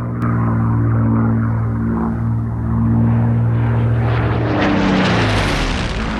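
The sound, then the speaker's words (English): Propeller engine drone of a Spitfire doing a roll and flying low over a valley, a loud, continuous roar that grows brighter and harsher toward the end. “The pilot does a roll, then flies low over the valley.”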